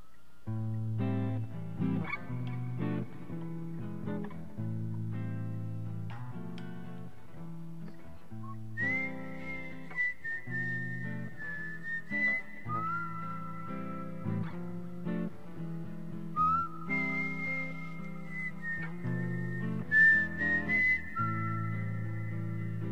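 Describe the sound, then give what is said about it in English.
A person whistles a bright, high melody into the microphone while playing an instrument, the clear whistled notes gliding and held over a steady bed of lower plucked or keyed chords. “Hard not to whistle and blow into the microphone like.”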